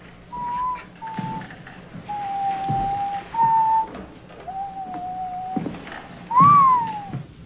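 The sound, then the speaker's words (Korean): A man in shirtsleeves whistles a classical overture as he walks into a classroom: several sustained, clear mid-pitched notes in separate phrases, the final note sliding downward, with no talk. “차이콥스키의 1812년 서곡을 휘파람으로 불면서 교실에 들어온 와이셔츠 바람의 키팅 선생.”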